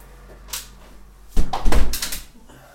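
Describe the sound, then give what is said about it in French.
A window is shut. A faint click comes first, then a louder rattling clatter lasts about a second as the frame slides and closes, with a quiet background and no talk. “Je vais fermer ma fenêtre à cause de ce bruit à l'extérieur qui déferle.”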